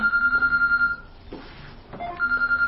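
A mobile phone rings during a religious lesson, a rapid pulsing trill on a bright steady tone that pauses briefly and then resumes, fairly loud and alone.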